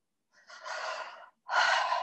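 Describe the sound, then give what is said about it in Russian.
A deep breath during a seated relaxation exercise, drawn in as a long airy rush and then let out as a second, fuller breathy exhale after a short pause, with no talking. “Глубокий вдох и глубокий выдох.”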